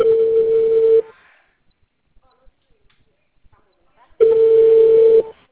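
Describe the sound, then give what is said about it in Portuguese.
Phone ringback tone as a call connects: two steady, low single-pitched beeps of about one second each, separated by roughly three seconds of near-silence with faint clicks. “parece que tá chamando.”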